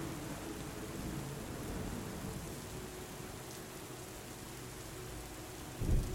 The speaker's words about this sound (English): In the distance, thunder rolls, soothing your head.